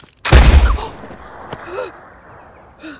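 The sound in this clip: A single loud gunshot from a pellet gun in a film scene: a sharp, heavy blast that decays quickly, followed by brief vocal sounds.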